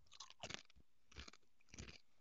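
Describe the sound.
Crunching on a spicy chip during a quiz challenge, several crisp, crackling chewing bursts separated by short pauses, fairly quiet and close, with no talking.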